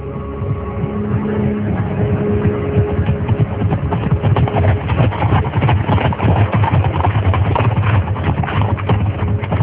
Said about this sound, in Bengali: প্রচন্ড বেগে ঘোড়া ছুটে গেলে যে শব্দ হয়, সে শব্দে তন্দ্রের ঘুম ভেঙে গেল, যেন কেউ ঘোড়ার গাড়িতে করে দূর থেকে ছুটে আসছে।